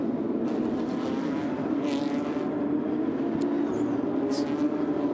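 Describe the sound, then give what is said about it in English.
Engine drone of a Porsche Turbo pace car leading the race field on the front straight at a Long Beach street circuit, a steady low, rumbling hum that stays at a fairly even level. “deluxe Porsche, that's a turbo actually that's uh, pacing the field here quick look at it uh, as it comes past us on the front straight here.”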